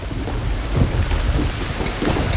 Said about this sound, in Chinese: 雨下大了，再拿伞。